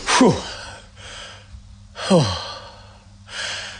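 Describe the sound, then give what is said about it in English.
Deep breaths drawn in and let out, a few slow breathing sounds at moderate loudness, two of them ending in a voiced, falling sigh. “I'm taking four breaths.”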